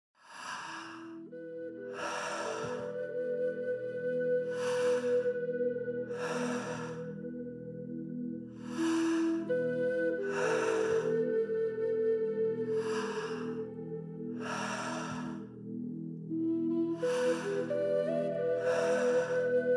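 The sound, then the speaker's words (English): Recorded rhythmic breathing for a Tummo breathing exercise: evenly paced, airy inhales and exhales repeat many times over sustained ambient musical tones. “You can follow along with the pace of the recorded breath that you hear.”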